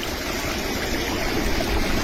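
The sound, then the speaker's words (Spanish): Rushing floodwater from the San Bernardo creek overflowing in barrio Libertador, Cauca: a dense, unbroken roar of turbulent water, loud and steady from start to finish. “Ve, a esta hora en el barrio Libertador se nos está desbordando la quebrada San Bernardo.”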